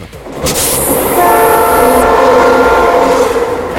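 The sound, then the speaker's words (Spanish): A locomotive horn blows loudly and without a break for several seconds. Beneath it runs the rumble of the rolling train. “Ah, ya, por la máquina. Hay que descifrar los sonidos pita del productor. Pita y pita la máquina. Pita y pita.”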